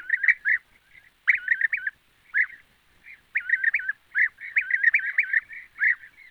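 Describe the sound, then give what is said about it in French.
European bee-eater song: short, rolling, trilled calls repeat in quick bursts with brief pauses, clear and alone against silence. “Et pour conclure, voici le chant du guépier d'Europe.”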